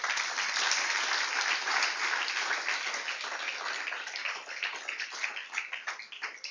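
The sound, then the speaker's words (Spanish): Applause offered to the Lord during a Bible sermon: dense, steady clapping fills the whole stretch at a fairly loud level, thinning slightly toward the end as individual claps stand out. “Le doy un aplauso al Señor en esta hora.”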